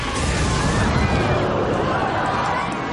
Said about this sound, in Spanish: El colacuerno le echa una bocanada de fuego.